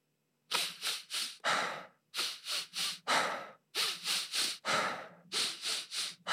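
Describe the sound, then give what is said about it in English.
Fast demonstration breathing exercise: three quick, sharp inhales fill the lungs, then one longer exhale lets the air out. The pattern repeats about four times in a steady rhythm, loud and alone with no talk. “So you're progressively filling up your lungs as you go up to 3 and then exhale, relax out. So I'm going to demonstrate it and you'll be able to hear it”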